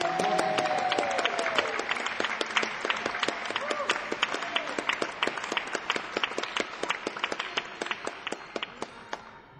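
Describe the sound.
Audience applauding musicians returning for a final track: a voice is heard briefly at the start over dense clapping, which then thins steadily into scattered, individual sharp claps toward the end.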